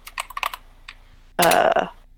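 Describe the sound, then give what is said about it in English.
Keystrokes on a computer keyboard as a password is entered: a run of light, scattered clicks, a lone tap, then a sudden loud, dense burst of clatter that soon fades. “Hang on, I'll type it.”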